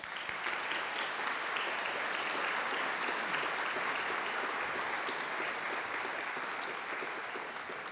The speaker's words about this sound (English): Please welcome Reverend Kachipapa.